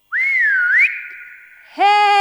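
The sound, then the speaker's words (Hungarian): A loud human whistle calls a dog. The single piercing note wavers up and down, then holds steady before fading. A brief gap follows, and then a louder, buzzier tone rich in overtones. “Kimegy a pitvarba, s nagyot füttyent.”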